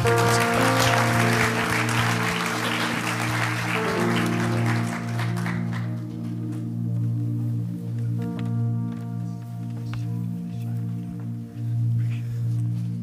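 Audience applause welcoming a pastor to the stage in a church, loud clapping over sustained musical tones, fading out after about five seconds while the music carries on.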